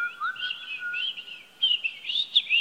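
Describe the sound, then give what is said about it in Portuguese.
Birds sing in the trees with high, thin chirps and warbling whistles that run almost continuously, growing livelier and louder in the second half. “Filhos, olhem nas árvores, pássaros são lindos.”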